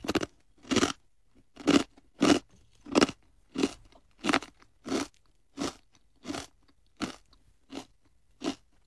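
Loud, crisp crunching from a mouthful of several food sticks piled together and eaten at once: about a dozen sharp chewing bites in an even, steady rhythm, with no talk.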